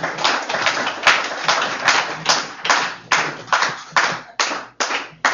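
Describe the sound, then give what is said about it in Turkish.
Audience clapping in a steady, rhythmic beat to encourage people at work: many sharp, evenly spaced claps that stay fairly loud throughout, with no talking over them. “Hadi alkışlayın biraz, teşvik edin kardeşleri.”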